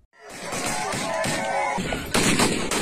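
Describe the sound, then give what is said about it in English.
Gunfire from gunmen in an armed ambush during a tribal conflict in Enga province, Papua New Guinea: loud, sustained rattling bursts of shots with a sharper surge near the end. “That's the sound of gunmen who massacred 60 people in an armed ambush.”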